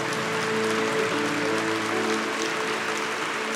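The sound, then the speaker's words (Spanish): Loud applause from a Christian worship audience in Mexico: a dense, steady clapping roar that holds an even level for the whole stretch, with faint sustained tones underneath. “Si le vas a aplaudir a Dios, aplaude fuerte.”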